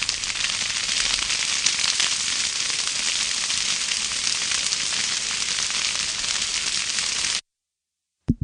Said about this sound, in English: The fire fades out.